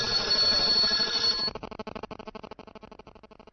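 A telephone rings with an incoming call: a steady, bright electronic ringing holds for about a second and a half, then breaks into a rapid pulsing trill that continues to the end, with no voices over it.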